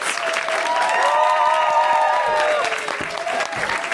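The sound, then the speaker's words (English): A comedy show audience applauds a guest as she is welcomed onto the stage, with loud, sustained clapping from the crowd that holds steady throughout and a voice speaking over it. “Please, start applauding this the second I start that sentence.”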